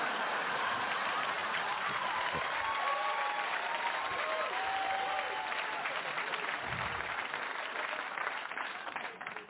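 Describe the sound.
A live audience applauds and cheers at a show. Dense, sustained clapping carries a few whistles, then tapers off in the final moments.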